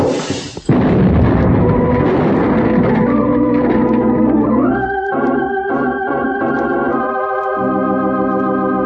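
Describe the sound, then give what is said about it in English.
A homemade bomb explodes beside a train and tears up the track: a sudden loud burst cuts off sharply, and a heavy, sustained rumble follows in its wake. “That homemade bomb would have done in the close quarters of the compartment, I hate to think about. But I got it away from Mark and made a heave just in time. Even so, it tore up a section of track next to us and broke enough windows on the train”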